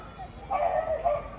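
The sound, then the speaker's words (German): Dogs bark and yip in a hilly city park in southern Madrid, where around forty dogs romp and fetch sticks. The barks are faint and short, a few bursts blending into the background. “Gut 40 Hunde tollen über die hügelige Grünfläche, spielen Stöckchen apportieren oder lassen sich von Herrchen oder Frauchen kraulen.”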